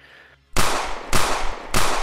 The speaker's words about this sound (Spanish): tú pegas los tres disparos y ninguno, ninguno da contra esta criatura